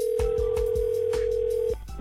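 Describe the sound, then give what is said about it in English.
A telephone ringback tone as a radio station phones a contest caller: one steady, sustained electronic tone lasting under two seconds over a rhythmic thumping music bed, then it cuts off. “You know what? I'm calling them. Let's try this.”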